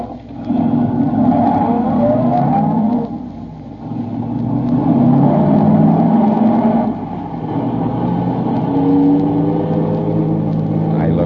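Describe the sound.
A car engine revs as the car pulls off at night, rising in pitch while it accelerates. The rumbling roar briefly drops in loudness twice between surges, as if shifting gears.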